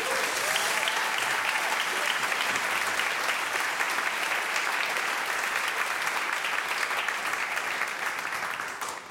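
An audience claps and cheers to welcome back four teenage trombonists and a guitarist from Chicago, a dense, steady roar of applause sustained at even loudness for about nine seconds before thinning slightly at the end.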